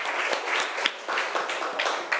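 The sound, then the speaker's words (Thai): Applause in a classroom for a student group's representative: a dense, steady patter of many hands clapping at even loudness throughout, with no talk over it. “เอ้าปรบมือให้ตัวแทนจากกลุ่มที่5ค่ะ”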